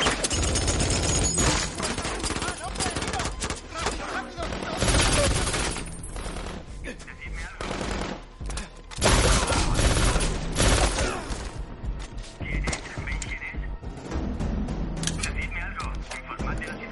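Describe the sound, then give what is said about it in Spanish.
Gunfire exchange in a 2016 action thriller, as a lone gunman trades shots with men firing from cover: dense, loud bursts of rapid automatic fire and single shots, nearly continuous and overlapping throughout. “Dentro están asustados. Disparan hacia Wolf, que devuelve los disparos. Wolf mata a un hombre. Los demás se refugian y disparan.”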